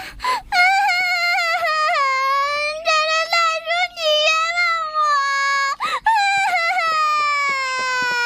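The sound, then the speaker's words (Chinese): A child cries loudly, wailing in long, high-pitched sobbing bursts broken by short catching breaths and a brief gasp. No other voices are heard. “哎，现在的孩子呀，真是太娇气了，一句批评的话都听不得。 嗨，哎呀，别哭了”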